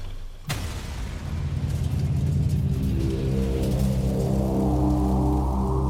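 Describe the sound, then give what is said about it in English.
A bomb detonation blasts out with one sharp, loud crack, then rolls into a deep, sustained rumble of the pressure wave that stays loud and steady to the end. “Blast. You can feel the pressure wave even at this distance.”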